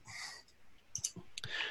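Mouse clicks while rolling damage in a tabletop role-playing game: a handful of faint, sharp clicks bunched near the middle, with soft breathy noise before and after.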